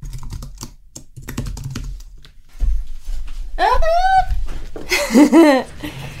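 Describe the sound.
Bank and credit card details are typed on a computer keyboard in quick, uneven bursts of light clicks, heard under a person talking, with laughter near the end.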